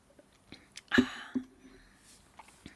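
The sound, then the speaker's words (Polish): Quiet sips of cocoa, with soft slurping and small mouth sounds and one stronger sip early on, faint against a near-silent background. “Łyczek, kakao”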